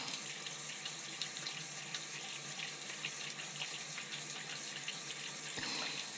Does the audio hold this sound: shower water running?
yes

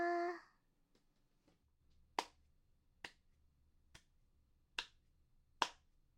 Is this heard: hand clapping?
yes

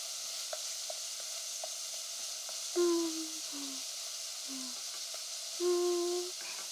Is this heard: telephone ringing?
no

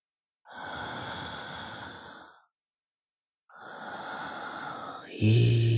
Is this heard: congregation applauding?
no

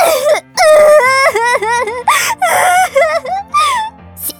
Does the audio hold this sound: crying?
yes

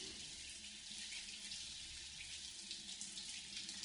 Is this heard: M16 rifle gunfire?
no

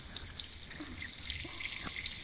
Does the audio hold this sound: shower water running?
yes

